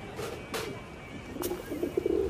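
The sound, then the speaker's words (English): Pigeons cooing at a city hot dog stand, soft low coos that cluster toward the end, over a steady wash of background noise. “And the pigeons gather bang on time for a free handout.”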